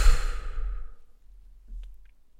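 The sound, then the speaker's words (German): A deep, breathy exhale during a Wim Hof breathing exercise opens loud and airy, then fades away over about a second, followed by a softer breath sound. “Tief einatmen. Kurz halten. Und ausatmen.”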